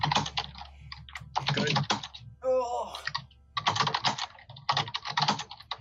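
Computer keyboard typing comes in several quick bursts of clicking separated by short pauses, with the keystrokes clattering briskly at moderate loudness.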